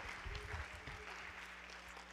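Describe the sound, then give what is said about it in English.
A church audience clapping their hands in worship, a faint, continuous patter of many hands with some low voices mixed in underneath. “And everybody say amen. Clap your hands unto the Lord.”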